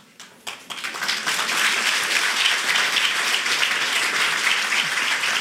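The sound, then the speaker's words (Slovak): Audience applauding during a live discussion on justice after elections: dense, sustained clapping that starts thin, swells within the first second, and then holds at a steady, loud level to the end. “Neviem, čomu tlieskajú, že ja končím, alebo on začína.”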